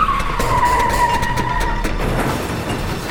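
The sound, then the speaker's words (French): Car tires screech during a getaway on a country road, a loud, sustained high squeal held steadily over a rumbling engine for the whole clip. “Les pneus crissent”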